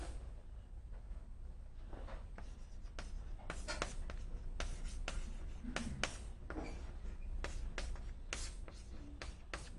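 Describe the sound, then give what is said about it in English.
Pen scratching as an equation is written by hand: many short, faint scraping strokes in an irregular rhythm, with brief pauses between bursts and no voices. “which is where I'm going to write this now as we could write this in this way, delta B over delta X times delta X, okay?”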